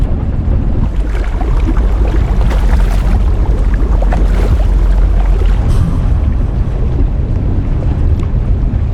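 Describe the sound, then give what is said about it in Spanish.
A boat motor running on the water, a loud, steady, low engine roar mixed with rushing wind and water noise that stays constant and unbroken throughout. “Hace mucho ruido. ¿Podemos apagar el motor?”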